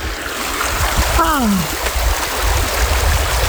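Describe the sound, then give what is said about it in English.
Running water of a stream by the stepping stones in Dovedale, Derbyshire, on a warm day: a steady, full rushing and burbling that continues throughout, with a brief falling voice-like sound near the middle. “That was the sound of running water in Dovedale, Derbyshire on Friday when I went up to the stepping stones”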